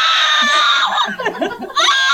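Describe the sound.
A woman screams while getting a tattoo: a shrill, sustained cry that breaks off in the middle with lower vocal sounds, then resumes loudly at the end.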